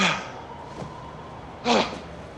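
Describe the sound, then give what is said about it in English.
Two heavy, breathy exhalations from a person catching their breath after running, one at the start and one near the end. Each is a short, rough puff of air, fairly faint, separated by quiet. “If I had to climb that fence, I was going to have a heart attack. Oh. You're having one right now. Oh, shut up. I just need to catch my breath, that's all.”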